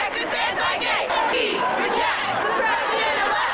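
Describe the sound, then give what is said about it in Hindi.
Thousands of protesters outside Trump Tower in New York chant anti-Trump slogans. It is a loud, continuous mass of raised voices that sounds rhythmic and shouted. “Trump tower के बाहर हजारों लोग जमा हो गए और तरह तरह के ट्रंप विरोधी नारे लगाए गए।”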